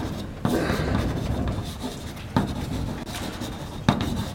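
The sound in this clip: Writing on a board during a technical explanation: steady, scratchy rubbing strokes broken by three sharp taps, with no speech.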